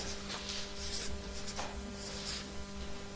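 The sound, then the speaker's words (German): Handwriting a word makes faint, soft scratchy strokes in short irregular bursts over a steady low hum, with no talking. “hier schreibe ich mal religiös”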